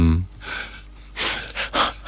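Choir singers' sharp intakes of breath, cut from a CD recording of choral music, a few quick, breathy inhalations after a brief low tone at the start, with quiet gaps between them.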